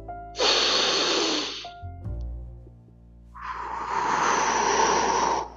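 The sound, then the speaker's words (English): A deep breath drawn slowly while seated, heard as two long, loud breathy rushes of air separated by a quiet pause with a faint low hum, the second rush longer and fuller. “Sit down. Take a deep breath.”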